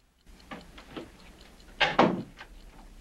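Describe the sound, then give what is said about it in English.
A bathroom door is shut: a few faint, light clicks and rattles come first, then a louder double thump as the door closes, all at low level with nothing else heard. “She gets up and hurries into the adjoining bathroom, shutting the door behind her.”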